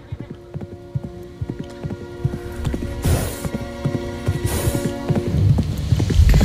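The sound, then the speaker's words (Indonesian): Hooves of four soldiers' horses gallop closer in a rapid, irregular clatter of clip-clop beats. The sound grows gradually louder toward the end, with brief bursts of noise in the middle. “Harita kuda anu dijumpakan ku opat urang soldadu company teh beki deket bae kadinya. Malah lompatna teh beki ngagancangan.”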